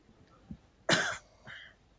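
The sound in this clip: A harsh cough bursts out suddenly and loudly, followed by a shorter, softer second cough. A faint throat sound comes just before.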